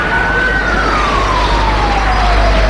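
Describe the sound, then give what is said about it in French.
A police siren wails during a street riot with fires and explosions, one long tone gliding slowly downward in pitch over loud, dense rumbling noise. “Tout d'un coup, on entend les sirènes des polices, de la police.”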